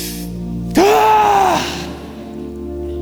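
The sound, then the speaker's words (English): A church audience groaning together in prayer: one loud, sustained low vocal groan begins abruptly, holds briefly, then fades into quieter sound. “Would you groan with me? Let's just groan. Ready?”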